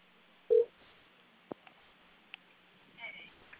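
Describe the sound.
Dialing tones of a Skype call being placed: one short, clear electronic tone, followed by a few faint clicks and a soft, brief tonal blip near the end.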